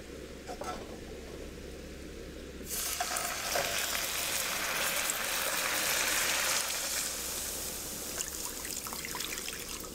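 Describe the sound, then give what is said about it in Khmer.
Water poured into a pan of caramelizing sugar to stop it burning bursts into a loud, bright sizzle a few seconds in. It rises from a low steady hiss, stays fierce for several seconds, then eases to a softer bubbling fry. “ការពារកុំឲ្យខ្លោចដូច្នេះគឺយើងត្រូវដាក់ទឹក”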